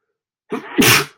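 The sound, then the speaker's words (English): A single human sneeze: a short intake of breath, then a loud, explosive, breathy burst that tails off quickly. “got to sneeze is what I'm trying to get at.”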